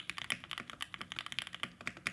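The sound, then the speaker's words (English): Typing on a mechanical keyboard: a fast, uneven run of many crisp, clicky keystrokes that stay fairly soft and sound alone, with no talking over them. “why would you want your keyboard to sound like this when it could sound like this?”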